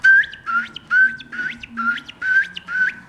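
A common ringed plover calls while running along a gravel bank, giving a rapid series of clear, piping whistled notes, each with an upturned ending, loud and alone.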